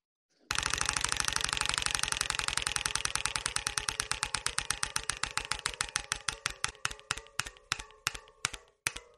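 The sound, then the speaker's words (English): Rapid ticking from a prize wheel being spun, many sharp clicks that come in a fast, dense stream at first and then space out and slow steadily toward the end, with no talk over it. “Let's spin that wheel, shall we, Dan? Here we go.”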